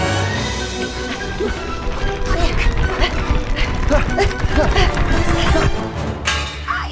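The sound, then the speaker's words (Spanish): A glass slipper falls and smashes in a staged chase scene, a few sharp crashing impacts standing out over a dense, busy clatter that runs throughout. “¡Mi zapatito de cristal se me ha caído!”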